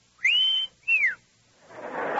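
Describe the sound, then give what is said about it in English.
A person whistles two sustained, clear notes, the first holding steady and the second falling in pitch, followed by a rushing noise that builds toward the end. “Wish I could whistle. I'll try.”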